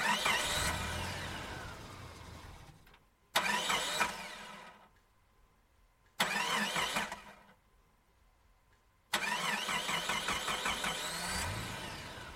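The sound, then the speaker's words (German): Whirring, engine-like start-up of a time machine, heard as four loud bursts with sweeping, rising tones, each fading into a quieter lull before the next surge. “Zuerst muss ich mal diese Zeitmaschine starten. Schließlich braucht man für die Zeitreisen doch eine besondere Maschine. Warte mal, ich starte sie mal kurz.”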